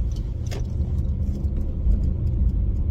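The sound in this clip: A car drives home through city streets in Colorado Springs in February, its low engine and tyre rumble steady throughout, with faint light ticks above the drone and no talking.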